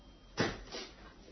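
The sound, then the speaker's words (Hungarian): A door being opened in a home: a sharp, loud burst near the start, then a second, softer swell of noise soon after, fading out. “Nyisd ki az ajtót, Franya.”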